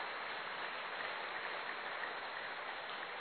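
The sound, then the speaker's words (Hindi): An audience claps to welcome a speaker, a faint, steady wash of applause that holds at an even level throughout. “आदरणीय doctor Savita दीदी जी का हम करतल ध्वनि के साथ स्वागत करते हैं।”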